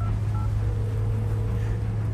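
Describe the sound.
Mobile phone keypad dialing tones, pressed inside a car, sound as a couple of short, faint beeps early on, over a steady low engine rumble.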